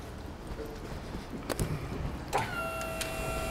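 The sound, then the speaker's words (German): A delivery truck's tailgate being opened on a narrow city street in Hannover, with a sharp clunk, a second louder clunk, then a steady faint mechanical whine that holds to the end. “Okay, dann können Sie einmal gerne noch die Klappe aufmachen.”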